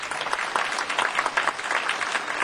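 Audience applause welcoming a mandolin player, a dense, steady patter of clapping that pulses slightly in strength across the short clip.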